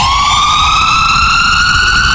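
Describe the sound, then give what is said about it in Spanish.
An ambulance siren wails as one loud, sustained tone that rises slowly in pitch, with bright harmonics, over a low rumbling background. “La sirena de una ambulancia.”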